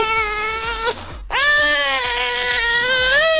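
A recorded baby cries in two long, loud, tonal wails broken by a short catching breath, the second wail held steadily to the end.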